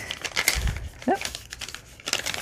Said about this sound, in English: so I will just go ahead and fold them.